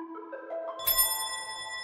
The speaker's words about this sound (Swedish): Sent en torsdagskväll ringer det på dörren till ett bostadshus i Tullinge i södra Stockholm.